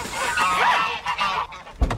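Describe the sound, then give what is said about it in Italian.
Geese honk, the aggressive males among them, in a run of loud nasal calls that overlap and repeat, ending with a sharper low squawk, with no talk. “Non sono anatre quelle, sono oche. I maschi sono aggressivi,”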